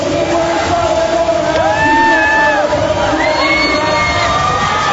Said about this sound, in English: This is the first robotics competition where 900 students from all over California, that came from Los Angeles, Sacramento, and of course Silicon Valley, all tried to out-robot each other